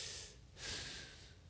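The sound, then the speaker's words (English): A voice imitates a breath being drawn in, making two soft, airy hissing inhalations, the second longer and fuller, quiet and alone. “It's the sound of our breath. It's the sound of our breathing in is Yah. Do y'all hear it? That is the breath.”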